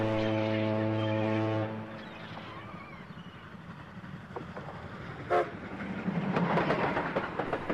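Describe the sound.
A train horn gives a long, steady toot as a train reaches a station, then fades into the rattling, rumbling clatter of the train rolling along, with a brief sharp hiss midway and the clatter growing louder toward the end.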